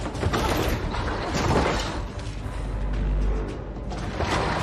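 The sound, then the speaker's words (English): A sliding barn door rolls shut with a loud, rough rumbling scrape that continues steadily for several seconds, with a slight swell in the middle. “steps into the barn and slides the door shut behind himself”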